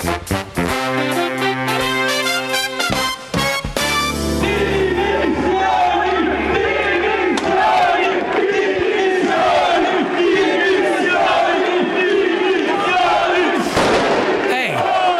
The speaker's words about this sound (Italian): Sentito anche i petardi. Questo è successo ieri alla Camera, di fronte alla Camera.